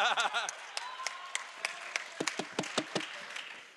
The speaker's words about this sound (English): Audience. That is from Halo. Yeah. Halo again. It reappears.